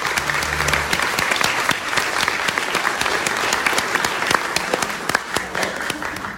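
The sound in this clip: An audience applauds to welcome a speaker at a political event. Sustained, loud crowd clapping runs throughout, with a few sharper individual claps standing out from the dense wash.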